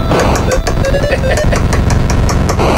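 Sounds of an old Atari video game being played: loud, continuous buzzing, engine-like electronic noise with a rapid, steady pulsing rhythm throughout.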